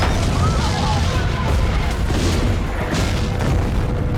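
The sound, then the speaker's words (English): Rockets fired by an army explode in a paddy field and on a wooden hut in a village. A dense, continuous roar of booms and bursts with heavy low rumble runs throughout, with no clear gaps between blasts. “The rockets are fired by the army. A man is blown to pieces. Michael runs with a child in his arms.”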